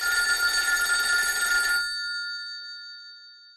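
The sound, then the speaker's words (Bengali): A telephone bell rings in one loud, bright burst lasting a couple of seconds, then its metallic tone lingers and fades away on its own. “সেই সময় phone বেজে উঠল”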